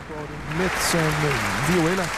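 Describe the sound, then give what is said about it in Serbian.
An audience applauds after the final number of a concert, a dense, steady wash of clapping that runs throughout while a voice talks over it. “Ovo je aplauz za Evu Zajčik.”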